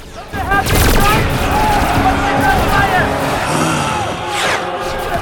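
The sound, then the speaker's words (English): Gunfire as a platoon of soldiers opens fire on advancing warriors in a film battle, rapid volleys of shots over a dense, loud wash of battle noise and crowd babble. “A platoon of Helion soldiers open fire.”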